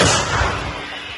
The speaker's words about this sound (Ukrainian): Бійці продовжують бити по цілі, один за одним. Розвідники більше не коригують, то значить, все лягає у ціль. Готово! Постріл!